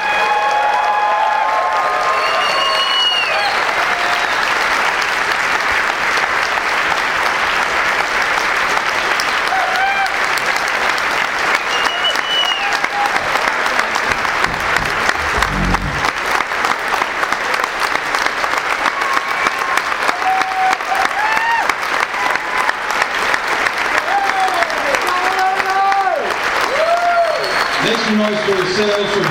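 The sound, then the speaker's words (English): An audience gives sustained applause and cheers for the speakers of a panel. Clapping stays loud for about half a minute, with whistles and voices rising over it. “Please make some noise for Paul Nocio. Make some noise for all of our incredible speakers in this panel.”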